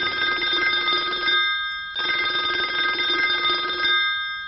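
A telephone ringing at a taquería: two long, trilling rings separated by a short pause, steady and fairly loud, with no talk.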